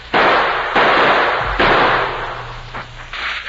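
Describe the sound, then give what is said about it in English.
Rifle shots fired across a canyon ring out as several loud, sharp cracks at uneven intervals, each followed by a long, noisy, rumbling tail. “Somebody shot at us. Come close. Somebody who doesn't want us to save that fellow down there. Take cover. Shot come from Cross Canyon.”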